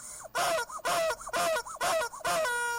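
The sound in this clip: Chickens clucking and calling back and forth outside: a run of loud, harmonic squawks in repeated bursts with wavering, rising and falling pitch, with no talk.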